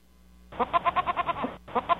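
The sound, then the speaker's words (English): Goat bleating: a long, loud, wavering bleat with a rapid pulsing tremble, then a brief pause and a shorter second bleat, with no talk over it. “goats say, meh. That's the difference. Do goats again.”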